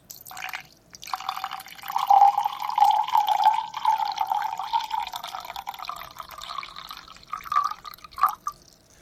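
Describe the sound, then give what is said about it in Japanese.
Sauvignon Blanc from the Torreón de Paredes winery in the Cachapoal Valley being poured: a steady, bubbling trickle of liquid lasting several seconds, with a few splashier glugs near the end. “このワインを実際に注いでみましょう。”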